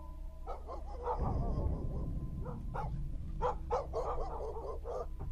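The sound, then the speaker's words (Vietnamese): Dogs barking in the distance in a village, several short bark bursts scattered over a steady, dense background noise, with no voices. “Xa xa ở trong làng, tiếng chó cắn ma nhấm nha nhấm nhặng.”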